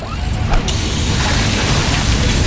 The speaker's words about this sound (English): Oh, busted hose. This will cost me time and money.